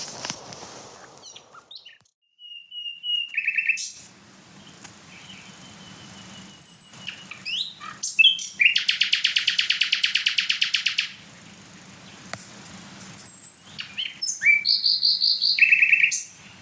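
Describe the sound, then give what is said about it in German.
A nightingale sings loud, varied phrases: clear whistled notes, fast repeated buzzing trills and sharp chirps, with brief pauses between phrases and no talking. “du kommst auch in den Genuss, in deiner Nähe irgendwo, in den Genuss des Gesangs der Nachtigall.”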